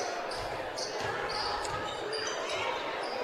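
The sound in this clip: A basketball is dribbled on a court during a high school game, its repeated low thumps partly buried under steady loud crowd noise and voices.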